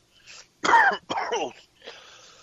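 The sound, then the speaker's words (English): A person clears their throat and coughs after something went down the wrong way, in a few rough, raspy bursts of uneven length separated by short pauses. “excuse me, it got something down my throat the wrong way.”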